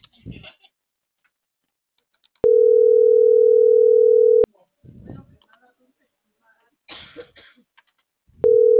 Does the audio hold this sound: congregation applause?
no